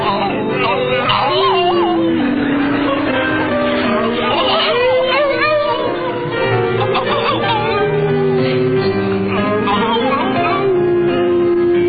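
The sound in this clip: Several voices howl like wolves while singing an old French song, with long wavering pitch glides that rise and fall in a loud, continuous chorus.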